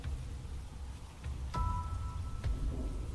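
Rain falling as a steady, soft, even hiss with a low rumble underneath, broken by a couple of sharp clicks. No voices are heard.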